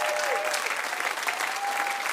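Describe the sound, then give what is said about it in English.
An audience applauding in a church to honour a longtime couple, with brisk, dense clapping that stays even throughout and is fairly soft. “Give these guys a hand.”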